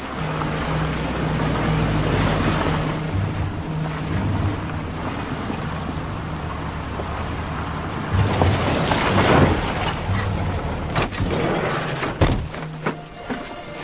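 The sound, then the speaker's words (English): A submarine pulls into port by the sea: a low engine rumble mixes with washing waves, turning rougher and busier toward the end, with a few sharp knocks. “Y'all gonna be the second batch of recruits coming in off the sub, pulling in the port right about now, so we ain't got much time.”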